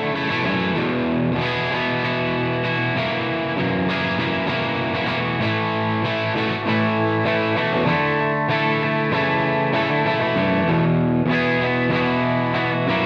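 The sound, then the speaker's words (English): Distorted electric guitar, double-tracked through a Dr. Z amplifier run into a power soak to keep the volume down. Thick, compressed chords and riffs play continuously at a steady, loud level, with no talking. “Pretty cool sound. That's a double-tracked Dr. Z. Let's hear one side, then the other, because remember, I double-tracked it.”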